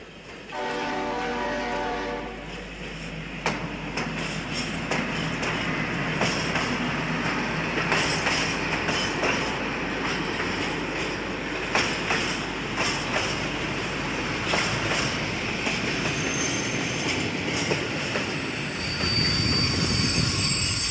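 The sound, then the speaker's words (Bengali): A train rolls into a station with a heavy, steady rumble that fills the whole stretch, opening with a sustained horn-like tone. A deeper roar swells near the end. “Station কাঁপিয়ে একটা train”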